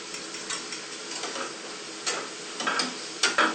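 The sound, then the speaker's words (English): A spoon stirs custard as it heats in a pan, making faint, repeated scraping strokes over a soft sizzling hiss. A few sharper, louder scrapes come later, with no voices. “Keep stirring. So there'll be no lumps.”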